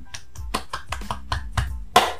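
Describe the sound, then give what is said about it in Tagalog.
One person claps his hands alone in a quick, slightly uneven run of sharp claps that ends on a louder final clap. “Ako na yung papalakpak. Pinapalakpakan ko na para sa ating podcast at tagumpay ng podcast na ito.”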